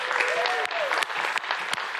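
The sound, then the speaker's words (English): Audience applause from a church gathering: dense, steady clapping from many hands, sustained and fairly loud throughout. “Can we give them a big, warm round of applause? Come on, somebody.”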